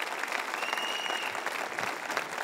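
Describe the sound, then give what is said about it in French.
Audience applause fills a large hall as people aged 35 and under stand to be cheered, a dense, steady wash of many hands clapping that stays even throughout. “Est-ce qu'on peut applaudir les 35 ans ou moins partout à travers cette salle?”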